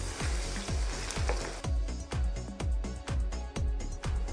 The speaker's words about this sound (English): Now we are going to add 2 tablespoons of each of ginger, grated, and 2 tablespoons of garlic, and we are going to saute them slightly.